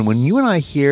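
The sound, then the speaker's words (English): A chorus of many cicadas forms a steady, high, monotonous buzzing drone beneath continuous talk. “The plague. This is the sound of lots of cicadas”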